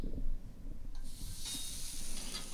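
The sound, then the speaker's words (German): Salted 130-gram beef patties sizzle on a preheated grill plate, a broad steady hiss over a low rumble that swells louder partway through and holds. “Und die gehen jetzt auf die Grillplatte.”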